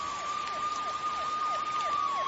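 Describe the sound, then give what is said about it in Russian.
Police car sirens wail from militia cars, with rapid, repeating downward sweeps over a steady high tone. The sound is loud and continuous throughout, and no voices are heard. “Послышался вой сирены. К ним приближались милицейские машины.”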